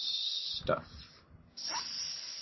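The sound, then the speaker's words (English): A person hisses like a snake in two long, breathy stretches of sharp hiss, broken by a brief throaty break and a short quieter gap, at a fairly low level. “So why are you, like, hissing?”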